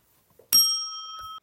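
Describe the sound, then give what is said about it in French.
A doorbell gives a single clear chime, a bright ringing tone that holds for nearly a second and then stops, with nothing else around it. “On sonne à la porte.”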